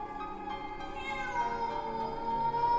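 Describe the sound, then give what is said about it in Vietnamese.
A cat meows repeatedly while sitting outside and staring into a house, no longer wailing: faint, drawn-out tonal calls that grow slightly louder toward the end. “Bây giờ thì nó không còn kêu gào kinh dị như lúc nãy, mà nó cứ meo meo như muốn nói điều gì.”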